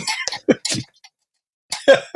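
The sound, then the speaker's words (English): Throat clearing with harsh, cough-like bursts. Two short clusters of rough rasps are separated by a second of silence. “Clearing your throat and having a meltdown about it.”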